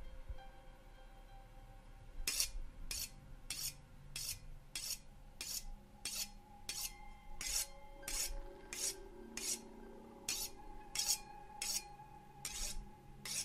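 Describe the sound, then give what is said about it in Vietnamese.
A knife is sharpened on a large stone slab set on a wooden frame at night, giving many steady, evenly spaced rasping strokes after a quiet opening, each a bright scrape against a low, sustained background hum. “Gã mài qua con dao, tiếng mài dao trong đêm, trong cái không gian quỷ dị này, nghe lại càng thêm ghê rợn.”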